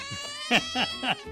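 Cat meows, three short, rising-and-falling cries in quick succession, loud and clear over a steady tonal background with no talk.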